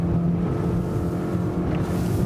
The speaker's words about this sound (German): muss das Motorboot jetzt so schnell, aber auch so sicher wie möglich einholen und stoppen.